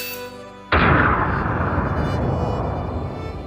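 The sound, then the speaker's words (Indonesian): A launched firework exploding: one sudden loud boom that rolls into a long, rumbling decay lasting about three seconds. “Ledakan pertama, ku pejamkan mata hingga seisi kamar dipenuhi asap tebal berwarna jingga.”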